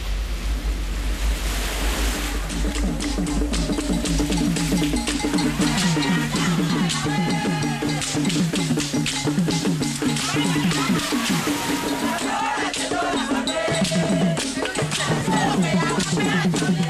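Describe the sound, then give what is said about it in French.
Waves wash over a beach at Ouidah, Benin, a steady, full surf roar with wind noise and other tonal sounds layered on top throughout. “On est sur une plage de Ouida. Ouida, marquée par l'esclavage.”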